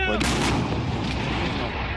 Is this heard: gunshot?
yes